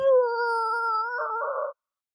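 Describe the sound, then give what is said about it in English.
A voice imitates a town fire siren with one long, sustained wailing tone held at a steady pitch, turning slightly rough toward the end before cutting off abruptly. “there's this fire siren that goes,”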